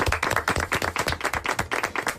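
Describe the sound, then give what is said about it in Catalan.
Audience at a choir gathering clapping: many crisp, distinct claps follow one another quickly in a fairly even rhythm for about two seconds. “Anem a fer-vos un aplaudiment, perquè ha estat molt bé.”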